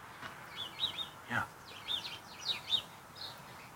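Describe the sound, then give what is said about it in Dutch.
House sparrows chirping near a small shed: several short, high, quick chirps in loose bursts, faint over a soft, low background rumble. “Even richting het, het klein schuurtje. Waar we wat mussen kunnen horen.”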